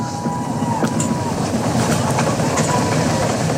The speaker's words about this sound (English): Good confirmation, past max Q, the RS-25's throttling back up to 109% thrust capacity.